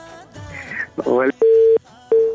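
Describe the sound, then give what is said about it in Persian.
A phone call cuts off and a disconnect tone sounds: two steady, mid-pitched electronic beeps with a pause between them, following a stretch of talk. “متاسفانه دی رحمت الله سیلاب تماس قطع شو”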